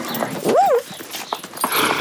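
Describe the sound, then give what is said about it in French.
Horse sounds from the royal stables across from a palace: a short, high, wavering whinny-like call rises and falls in the first second. Scattered soft clopping and rustling follow, with no talking. “Regarde, ce sont les chevaux de la reine et du roi.”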